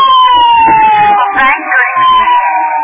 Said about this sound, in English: Well, what is it? Ambulance. Oh. Oh, and here comes a prowl car.